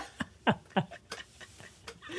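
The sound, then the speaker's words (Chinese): A person imitates a goose honking with a few short, nasal vocal honks in quick succession, followed by fainter, softer sounds. “我其实不知道鹅怎么叫，但我记得我那个录影带里面是这样呗呗呗”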